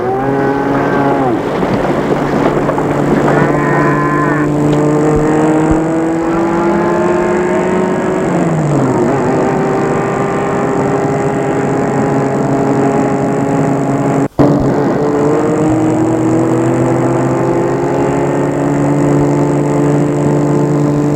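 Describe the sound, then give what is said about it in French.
A car drives off along a motorway after farmers clear the way for it. A loud, steady engine drone shifts pitch a few times as it pulls away, with no voices. “Et il referme le coffre et entre dans la voiture. Et Gilbert roule.”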